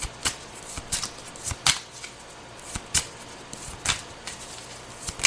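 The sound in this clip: A deck of cards is shuffled during a horoscope card reading. Many crisp, papery riffle bursts and snaps come in an irregular rhythm, some sharper and louder than others, over a quiet background.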